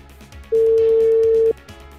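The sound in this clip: Telephone busy signal: a single loud, steady electronic beep lasting about one second, with quiet background before and after it.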